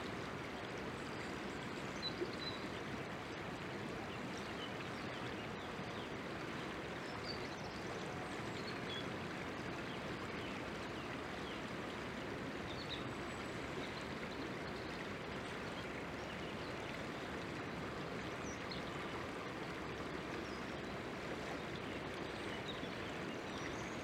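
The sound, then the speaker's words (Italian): Water of a stream flows on without pause, a steady, even rushing wash at a fairly low level throughout. “Lo scorrere dell'acqua, incessante e inarrestabile, è un'antica metafora.”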